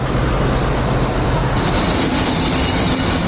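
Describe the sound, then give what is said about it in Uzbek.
A train arriving at Budapest's western railway station carrying hundreds of refugees from Ukraine, heard as a loud, steady rail rumble with a faint sustained tone running through it and no talk. “28 fevral kechqurun Ukrainadan o'tgan yuzlab qochqinlarni olib ketadigan poyezd Budapeshtning g'arbiy temir yo'l vokzaliga yetib keldi.”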